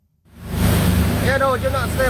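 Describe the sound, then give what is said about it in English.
A Coast Guard boat approaching a burning ferry in the Philippines, bound for Coron: a steady roar of engine, wind and water builds from near silence, with a man's voice speaking over it. “Here's the sound of the Coast Guard approaching the burning ship.”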